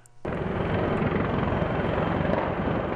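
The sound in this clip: Military helicopters arrive at the US embassy in Baghdad, their rotor roar cutting in abruptly after a brief quiet moment and then holding as a loud, steady, throbbing wash of engine and blade noise.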